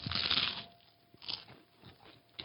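Crisp bites into a crunchy lemon pepper flavored snack: a loud crackling crunch at the start, then a few quieter, brittle chewing crunches in an uneven rhythm.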